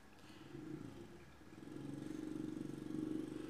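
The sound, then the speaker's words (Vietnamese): Motor cargo carts hauling Tết flowers from a nursery putter with a low, rapidly pulsing engine rhythm, faint at first and growing steadier and louder partway through. “Đằng phía view cửa sổ của tôi là một cái vườn ươm hoa Tết rất là rực rỡ luôn và bây giờ người ta đang đánh xe bà gác tới và chở hoa đi”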